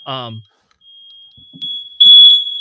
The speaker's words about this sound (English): I don't know what that is. That's the fire alarm.